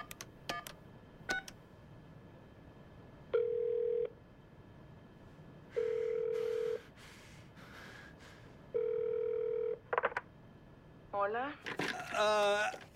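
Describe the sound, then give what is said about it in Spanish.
A guard places a telephone call. A few faint clicks lead into three long, steady tones at even intervals, followed by a short cluster of quick electronic beeps. “El guardia coge la tarjeta y ve el número telefónico al reverso. Hace la llamada mientras mira a Ji-hun.”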